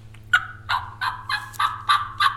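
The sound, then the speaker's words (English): Wild turkey gobbling: a run of seven evenly spaced, bright, rough calls, each a short burst at about the same pitch, sounding alone over a low steady hum. “And hopefully they'll gobble back at me, and we'll get kind of an excitement thing going.”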